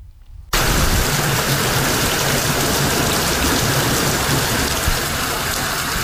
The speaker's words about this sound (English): That is the sound of rain.